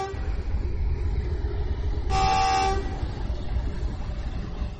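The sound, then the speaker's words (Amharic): A train on the Ethio-Djibouti railway, a line restored after years of disuse: a steady, low rumble of rolling wagons runs throughout, broken by one short, bright horn blast near the middle. “በያዝን ወር መጀመሪያ በዕድሜ ብዛት ፉርጎቹ ቆመው የመገናኛ ሀዲዶቹ በርጅኖ ተበልተውና በአፈር ተውጠው የቆዩት የኢትዮ ጅቡቲ የባቡር መንገድ ሸከተፍ ብሎ እንደ አዲስ ተነስቷል።”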